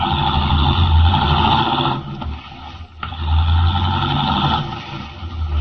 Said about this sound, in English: Leaving to Teufel standing in the road, Henry Miller, the Atom Man, drives rapidly away.